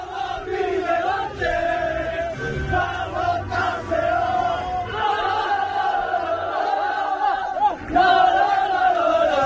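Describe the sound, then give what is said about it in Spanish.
A crowd roars and chants in celebration of a long-awaited sports success after more than eighty years, a loud, sustained mass of voices with surging shouts that never drops away. “Son los sonidos de la celebración de ayer, después de 80 y pico años.”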